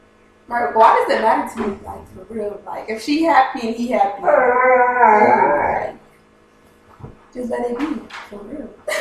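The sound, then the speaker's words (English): A dog howls in a long, sustained, wavering tone among people talking, with shorter vocal bursts before and after the howl. “if you hear the roar in the background, that's Captain. He agrees. That was a yes, bitch, in doggy language.”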